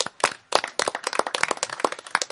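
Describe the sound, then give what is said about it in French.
Applause after a performance of a folk song: a small group clapping briskly and unevenly, many sharp overlapping claps at moderate loudness for a couple of seconds. “Ben on vous applaudit si vous voulez bien.”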